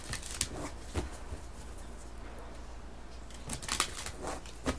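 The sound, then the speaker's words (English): Tarot cards from the After Tarot deck handled as a single card is drawn: a few faint, brief papery rustles and flicks over a low steady hum, with no voices. “All right, so I'm going to draw one card from the After Tarot, looking at what you can expect towards the end of April.”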